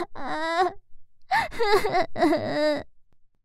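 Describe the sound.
A frightened child cries on its own, fairly quietly: a short trembling sob, a pause, then two longer wavering wails that break and quaver.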